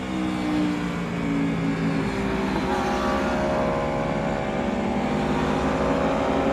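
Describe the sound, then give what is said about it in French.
Engine drone from an Aprilia motorcycle with a V4 engine on a busy race circuit where the track has just dried. The tone is loud, steady and continuous for the whole clip, with no speech. “Elle brûle, c'est génial le V4. Parce que oui, cet Aprilia, sa particularité c'est son moteur V4.”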